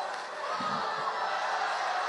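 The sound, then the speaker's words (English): Fans at a baseball game cheer in a broad, steady roar that stays fairly faint throughout. “Those cheers are not for us. No. But they would have been if it was about 4 feet higher.”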